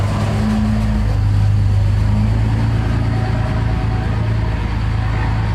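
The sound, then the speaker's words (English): A Cummins 6.7 diesel truck drives by with a loud, steady, low engine rumble that holds throughout, with no voices over it. “Cummins 6.7 just went by. Everybody likes hearing a Cummins 6.7 drive by.”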